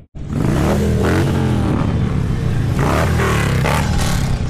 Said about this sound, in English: Hundreds of bikers came from across Nevada and California to take part in the ride. They drove through Reno and Virginia City.